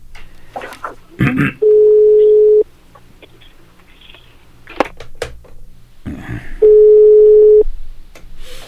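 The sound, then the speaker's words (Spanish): A telephone ringback tone sounds as a call connects, in two steady, mid-pitched rings separated by several seconds of quiet line noise with faint clicks. “esperando que suene por acá, que enlace la llamada”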